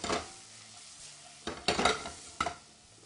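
Peppers and onions cooking down in a pan: a few scraping stirs and clatters over a low, steady sizzle, with no talking.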